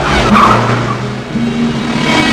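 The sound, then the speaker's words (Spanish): A rented van on the road between Georgia and Illinois breaks down after striking a huge pothole, with loud, steady vehicle roar and a short high tire squeal over constant road noise. “Como a mitad de camino, su van se descompuso al dar contra un enorme hoyo en la carretera.”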